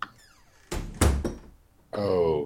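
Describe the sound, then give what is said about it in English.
A door is shut with a couple of solid, clunking thuds in quick succession, followed by a pause and then a voice speaking. “Come on in. Shut the door behind you, would you please?”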